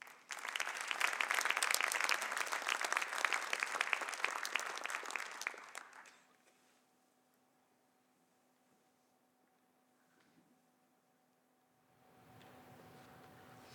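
Audience applause welcomes a reader at a Christmas story reading. Steady clapping lasts about six seconds, then stops abruptly, leaving a faint low hum and a brief soft rise of noise near the end.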